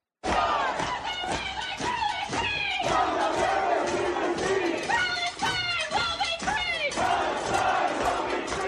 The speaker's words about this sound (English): students at Cornell University, Brian, we want to ask you about this. They were welcomed back with more anti-Israel protests. This was yesterday.